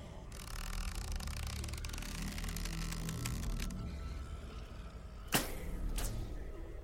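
Arrows shot from a bow: two sharp, airy snaps about half a second apart, the second slightly softer, rising over a steady low rumbling background.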